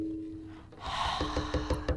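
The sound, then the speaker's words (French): Breathing on its own: a soft airy rush of breath swells in partway through and holds steady, with a few faint rhythmic pulses beneath it. “Le bruit de la respiration.”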